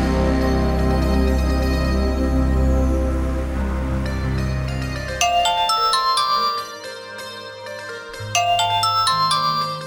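An electronic ringtone sounds for an incoming telephone call. A bright melody of quick, chiming notes plays twice after a loud, low musical drone fades out.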